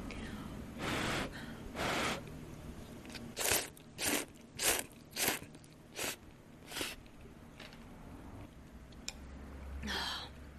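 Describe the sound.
Slurping of yellow egg noodles in a broth with pork and fish cake: many short, breathy slurps and chewing noises in quick succession, fading to fainter bursts, with no talk.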